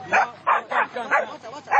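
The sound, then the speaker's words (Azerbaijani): Dogs kept to scare off thieves at night bark in a quick run of sharp, loud yelping barks with short gaps between them. “when these dogs are around, they will bark at them, so they will be scared.”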